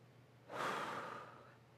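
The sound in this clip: A single long, deep breath drawn in slowly, a soft airy rush that swells and then fades over about a second, faint and without any talking.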